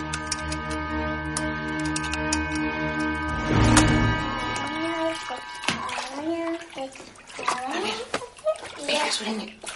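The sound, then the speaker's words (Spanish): Water sloshes and splashes in a bathtub as a mother washes her young daughter, with a child's voice and other voices talking over the watery sounds. “Joyes lava a su hija en la bañera”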